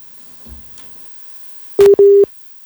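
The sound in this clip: Telephone busy tone after a call drops: two short, steady, mid-pitched beeps in quick succession, loud and clean, following a soft low thump and near-silence.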